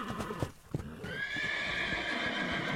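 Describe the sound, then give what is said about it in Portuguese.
A horse stamps its hooves a few times and then lets out a long, loud, high neigh that holds steady to the end, as it halts on a rocky approach near a mountain ridge. “ele parou, levantou a cabeça, bateu as patas no chão e relinchou novamente.”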